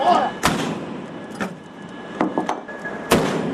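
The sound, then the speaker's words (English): Naval gun salute exchanged between shore guns at a harbour cenotaph and a returning frigate, heard as a few deep, sharp booms at irregular intervals over a low rumbling background. “Darwin returned fire as she was welcomed into the harbour by a gun salute from the Cenotaph.”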